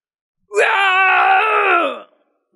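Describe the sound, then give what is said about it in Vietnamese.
A fierce scream rings out: a single loud, sustained cry of about one and a half seconds, harsh and strongly voiced, with a wavering pitch that sags near the end, heard alone. “Một tiếng gào thét dữ dội xé lồng vang lên.”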